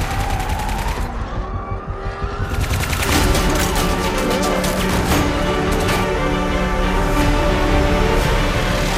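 Gunfire from an action film set on Christmas Eve: loud, dense volleys of rapid shots crackle almost without pause over a continuous roaring background.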